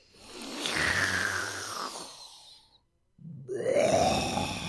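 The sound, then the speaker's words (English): Deep, audible recentering breaths taken together by more than one person: two long, loud breath sounds with a groan-like voiced edge, separated by a brief silence. “Let's take a nice recentering breath all together.”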